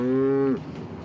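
A cow moos once on a floating cow barn, a pontoon stable in Rotterdam: a loud, steady, low moo of about half a second that cuts off, followed by faint background noise.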